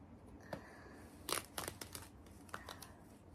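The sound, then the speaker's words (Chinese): Black nylon stockings are torn open by hand, giving a few faint, short ripping and crinkling bursts. The rips come in irregular spurts, with a cluster in the middle and a couple more near the end, over a quiet background. “接下来，我要先把丝袜撕开。”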